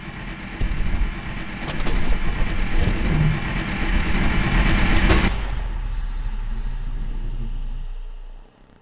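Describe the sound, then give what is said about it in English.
A backup generator starts up with a loud mechanical roar and settles into a steady, continuous whir before it cuts off abruptly. “While I may not have enough fuel for space travel, I do have enough to get this backup generator whirring.”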